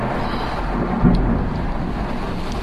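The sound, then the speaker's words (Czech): Thunder from a storm that has just arrived, a low, steady rumbling roar blended with wind and heavy rain noise, swelling briefly around the middle before settling back to a constant wash. “Máme tady bouřku, právě se přihnala a dala o sobě vědět.”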